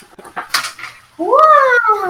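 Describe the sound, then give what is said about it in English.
An American shorthair cat gives one long, loud meow that rises and then settles into a drawn-out tail. It follows a short stretch of softer, scattered sounds. “Is she a special breed of cat, or is she just a... She's just a normal, like, American short hair.”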